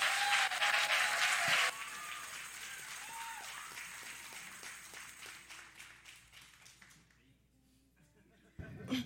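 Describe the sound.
Applause welcomes a pastor to speak at a live recording. A loud, dense burst of clapping opens, then thins into scattered claps that gradually fade, with voices faintly underneath.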